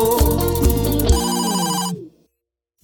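A cell phone ringtone plays a bright electronic melody of steady, harmonic notes. It cuts off into silence, then starts again right at the end.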